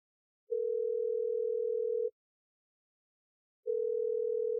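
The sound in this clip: Telephone ringing tone heard while a call is being placed: two long, steady, low-to-mid-pitched tones separated by a pause of similar length, fairly faint and with nothing else heard.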